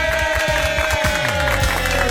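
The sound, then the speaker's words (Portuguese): Crowd applause rises at a live event, a dense, steady wash of clapping and cheering that holds evenly throughout, loud and continuous with a sustained tone running beneath it. “mais aplausos para o Juliano”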